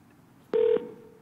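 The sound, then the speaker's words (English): Telephone keypad tone as a call comes into a customer support line: one short, steady beep of about a quarter second over faint background hiss, with a quieter tone lingering after it. “Let's listen at a call that comes through and the user doesn't belong to a pilot group.”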